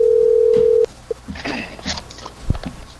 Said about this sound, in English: let's get this dude on the phone here